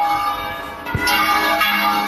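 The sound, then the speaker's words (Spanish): Mechanically rung bells of a co-cathedral in Logroño, heard as a sustained, resonant bell tone with a fresh strike about a second in, ringing on steadily and fairly loud. “En la calle Portales, la concatedral de Santa María de la Redonda. De la capital riojana. Y tocan a... ¿Cómo que terrible? Terrible porque tocan mecánicas.”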